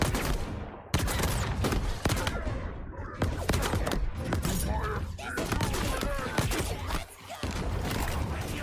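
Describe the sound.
Rapid gunfire from the Mozambique shotgun in the Apex Legends video game: a loud, dense barrage of overlapping shots and metallic clatter with almost no pause, cutting off briefly near the end before the shooting resumes.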